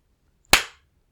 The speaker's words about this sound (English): How does that feel? To be spanked and grated by your partner? Hearing the smack as my palm bounces off your ass?